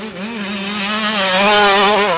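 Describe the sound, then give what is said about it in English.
A motorcycle engine drones loudly at a steady, buzzing pitch with a slight wavering for about two seconds before cutting off sharply. “Does your bike sound like this? Would you rather it sound like this?”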